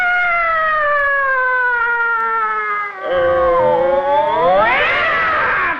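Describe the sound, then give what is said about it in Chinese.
Cats yowling in a fight: one long, loud, tonal wail sliding slowly downward, then after a brief dip a second harsh yowl that sweeps sharply upward near the end, with no talk. “干嘛猫打架呀”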